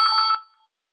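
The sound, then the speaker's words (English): A telephone bell rings in one short trilling burst, loud at first and then quickly fading to silence, with no voices over it. “Somebody got bells ringing there. There's bells ringing. I will have to clip this out. Oh, it sounds like a telephone going.”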